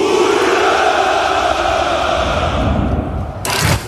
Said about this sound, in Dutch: De jaarlijkse hoera voor de overwinning in de Tweede Wereldoorlog klinkt dit jaar toch net iets minder overtuigend.